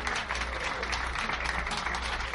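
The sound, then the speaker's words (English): A live show audience in Buffalo gives a round of applause, a dense, continuous roar of clapping hands that stays loud and even for its whole short length. “Let's give him a nice round of applause.”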